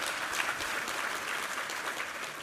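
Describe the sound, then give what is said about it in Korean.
Applause from a church audience during a service, offered as thanks to God. A continuous, even patter of many hands clapping, fairly soft, with no voices standing out. “우리 하나님께 감사와 영광의 박수 올려드리겠습니다.”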